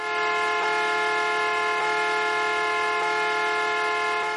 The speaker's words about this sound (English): And I looked up, a 1970s car horn sounds like this.